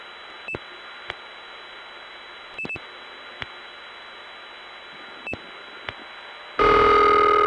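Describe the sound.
A telephone call ringing through to an inward operator: a steady line hiss is broken by several sharp clicks, then a loud, buzzing ring tone starts abruptly near the end.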